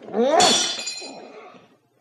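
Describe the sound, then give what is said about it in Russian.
A glass carafe breaking: a single bright crash of shattering glass, followed by high, ringing glassy tones that fade away over about a second. “Разбил графин, и тебя разобью.”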